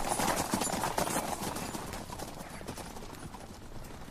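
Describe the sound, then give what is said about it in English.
Horse hooves clip-clop steadily as a rider leaves on a large horse, with many quick, even hoofbeats continuing throughout. “There he goes, Hod. A small man on a large horse.”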